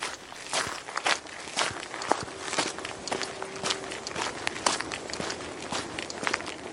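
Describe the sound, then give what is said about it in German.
Footsteps of people walking outdoors between a car park and a campsite just after leaving a forest, many steady crunching steps at an even walking rhythm continuing throughout. “Wir sind jetzt raus aus dem Wald und laufen zwischen einem Parkplatz und dem Campingplatz Westerholz durch.”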